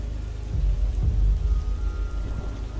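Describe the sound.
Heavy rain hisses steadily through a storm while low rumbling thunder swells under it in the first half, then the downpour continues alone.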